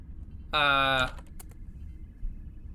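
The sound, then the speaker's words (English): Typing on a computer keyboard: a short vocal sound, then a few light, quick key clicks, all faint against a quiet background. “Type in Klingon. So if there's a dictionary and I can type in Klingon or English.”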